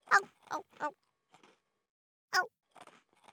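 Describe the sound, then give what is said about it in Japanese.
Sharp, crisp crunches of teeth biting into a hard-baked rice cracker: several loud, separate bursts with quieter crackly chewing between them. “八重歯で噛むかた焼きせんべいは最高だ。”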